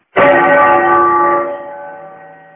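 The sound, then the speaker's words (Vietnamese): Temple bell struck once near a mountain monastery, its sound carried up on the wind: a bright, loud strike with layered ringing overtones and a low hum that slowly fades over about two seconds, no voices. “Gió đưa tiếng chuông chùa từ phía dưới vọng lên, khiến người nghe như trút hết phiền tục.”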